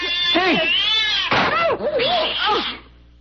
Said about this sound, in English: That cat was mad. It was attacking.